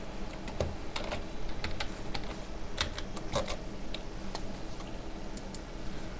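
Typing on a computer keyboard as a search for York University is entered in a catalogue search field: many light, rapid key clicks in an uneven rhythm over a steady hiss, no talk.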